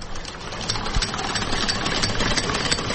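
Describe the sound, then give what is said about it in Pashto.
A reputable-make sewing machine bought in Gujarat and used for tailoring at home runs with a steady, even mechanical whir and hum. The sound stays fairly constant throughout with no break. “ډېر ښه ماشین دی، کارخانه یې معتبره ده. دام په مجرات کې اخیستی و. یو څو وخته ما په کور کې خیاطي وکړه”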